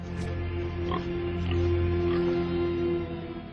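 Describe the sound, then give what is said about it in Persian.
Pigs oinking, a run of fairly loud, nasal grunting calls that swell slightly in the middle. “خوک ها.”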